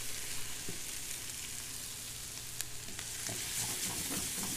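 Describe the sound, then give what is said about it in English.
Fresh garlic and fresh thyme sizzling in a hot pan: a soft, steady frying hiss broken by a few light scraping stirs, growing a little busier toward the end, with no talk. “And I just stir that around and let that the bouquet of that garlic smell kind of start to come out.”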